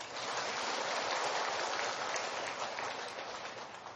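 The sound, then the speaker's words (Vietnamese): Sustained applause from an audience in a lecture hall, a dense, even wash of clapping that holds steady for about four seconds and eases off slightly at the end. “Thôi vậy mình hoan hô cho 20 người đó đi.”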